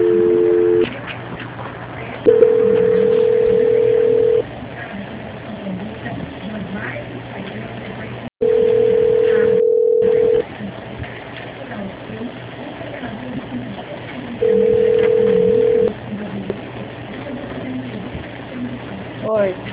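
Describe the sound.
Telephone line tones play during a call transfer: three long, steady, low-pitched beeps of roughly two seconds each, spaced several seconds apart, after a brief double tone at the start. Voices talk faintly between the tones.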